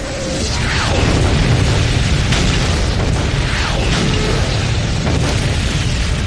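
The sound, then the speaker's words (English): Artillery creeping barrage: a loud, continuous roar of overlapping explosions and booms with no clear gaps between the blasts. “Now the artillery launches a creeping barrage, designed to provide a moving curtain of steel to protect the advancing infantry.”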